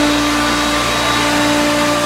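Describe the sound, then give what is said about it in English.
A household vacuum cleaner runs over carpet at home before a holiday dinner, a steady loud motor drone with a constant high whine and no pauses. “That's literally live video shot in 2023 of Senator Chuck Grassley vacuuming the carpet ahead of their family Thanksgiving dinner.”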